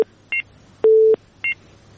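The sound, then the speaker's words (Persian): Telephone tones after a call on the line is cut off: short, high two-tone beeps alternate with a longer, lower steady beep. The electronic tones are loud and clean, with no voices. “بله تماس از اینا قطع شد. خب اگر تماس دیگه برقرار نشده باشه”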